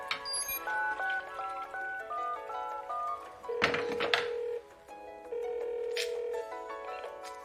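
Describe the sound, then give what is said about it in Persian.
A phone placing a call to a home line, sounding two long, steady electronic tones one after the other, each about a second long, after a busier stretch of shorter tones. “با اسکایلر تماس بگیر.”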